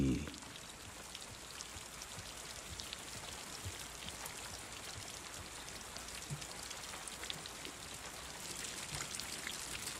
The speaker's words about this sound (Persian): امروز چه بارون قشنگی میاد. ای بارون.